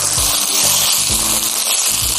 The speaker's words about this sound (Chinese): 倒入板栗仁，中小火把它翻炒一下，然后倒入香菇，再倒入鸡汤，